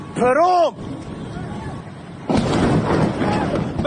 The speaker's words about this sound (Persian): ناگهان صدای جنگنده آمد و بعد بمباران.